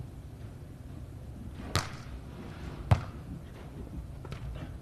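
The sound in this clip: A volleyball serve during a team match gives two faint, sharp slaps of hand on ball about a second apart over a low, murmuring background.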